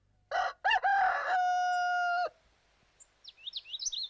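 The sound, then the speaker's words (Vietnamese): A rooster crows at dawn in one loud, stuttering call that holds a steady tone and then cuts off. Faint, high bird chirps follow in the quiet afterward. “Trằn trọc lo lắng cả đêm, tiếng gà gáy sáng làm cho ông Bảy”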